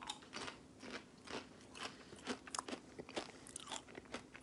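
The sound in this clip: Food is bitten and chewed during a taste test, producing many soft, irregular crunches in a loose rhythm. The sound is quiet, with no talking.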